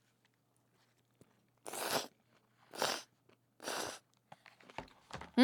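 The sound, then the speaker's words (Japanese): Eating chilled ramen noodles topped with ham, wakame and shredded egg: three loud, noisy bursts of slurping and chewing in even succession, followed by a few quicker, fainter clicks and smacks, with a brief murmur from the eater. “ちょっとハムとわかめと錦糸卵と一緒にいただきます”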